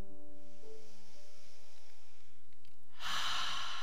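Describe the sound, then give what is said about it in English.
A deep breath released during a guided meditation: a quiet stretch over soft sustained tones, then one loud, breathy exhale bursts in near the end. “Let's do that two more times, breathing in deeply,”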